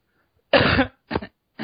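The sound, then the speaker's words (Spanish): Three loud coughs from a man who pauses mid-talk to clear his chest. The first burst is the longest and harshest, followed by a shorter cough and a third that is cut off at the end, each separated by silence. “He dejado este hueco para toser.”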